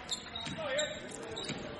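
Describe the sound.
A basketball is dribbled on a gym floor during a boys' high school game, giving a few dull bounces under steady crowd noise.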